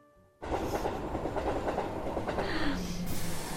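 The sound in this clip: A Hokuriku Shinkansen train arriving at Toyama station: a loud, steady rumble with rhythmic rail clatter that starts abruptly after a brief quiet moment and carries on without voices.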